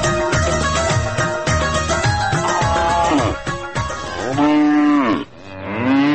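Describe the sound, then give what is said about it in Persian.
Cows moo repeatedly in the milking section of a dairy farm while workers milk them. The loud, drawn-out calls overlap through a dense stretch, then several long separate moos follow near the end. “اینجا میبینیم که تعدادی از کارگرای مصروف شیردوشی گوا هستن.”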